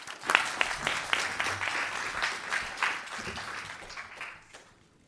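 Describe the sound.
An audience applauds to welcome a speaker to the stage at an academic talk on democratic politics. Many hands clap in a dense, steady patter that gradually thins and fades toward the end.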